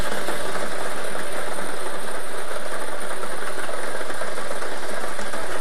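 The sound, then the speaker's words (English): A lottery draw machine spins its numbered balls before a five-number millionaire draw, giving a steady, dense whirring roar with a faint rattle. It holds even and loud throughout, with no voices. “Let's get these balls spinning so you can start winning.”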